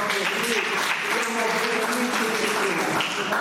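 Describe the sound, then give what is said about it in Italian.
Steady audience applause, dense and continuous throughout, with a voice faintly audible beneath the clapping. “Un applauso a questa donna e tutte quelle precedenti,”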